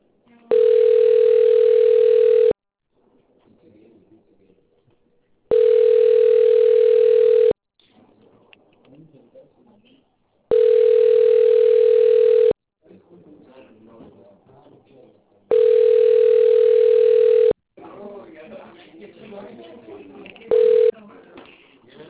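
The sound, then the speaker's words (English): Telephone ringback tone while a call connects: four steady two-second beeps, each followed by about three seconds of faint murmur, then one short final blip near the end. “Connecting call.”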